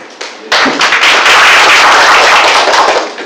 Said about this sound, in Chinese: 谢谢哇！掌声这么热烈，就证明我们是一个团结和谐的场所。